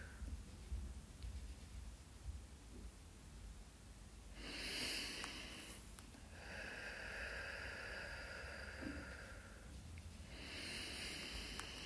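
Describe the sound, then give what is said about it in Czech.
Inhaling and exhaling during a guided breathing exercise: faint, airy breath sounds that rise and swell in a few long, drawn-out stretches over a low background hiss, with no voices. “1, nádech, výdech. 2, nádech, výdech.”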